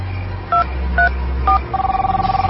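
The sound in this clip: A telephone number is dialled: three separate keypad tones sound at even intervals, followed by a rapid run of short, pulsing beeps.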